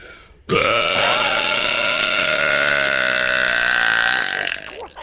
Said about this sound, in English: Shut up. Stop talking. Just burp.